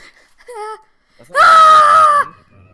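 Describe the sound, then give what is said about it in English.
A man screams loudly once, a sustained, strained, high-pitched yell of just under a second, preceded by a shorter, softer vocal sound. “You'll be screaming that. I can scream right now. Dude, do it. Laganda!”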